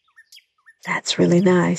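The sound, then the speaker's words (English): A few faint, high bird chirps sound outdoors in Bermuda, followed by a person speaking over them. “Just listen to those birds chirping.”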